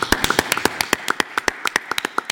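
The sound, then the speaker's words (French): Applause for a guest being honoured in connection with the Olympic athletes' village: sharp, distinct hand claps in quick, irregular succession, a crisp patter from a small audience without voices. “Un immense applaudissement pour vous,”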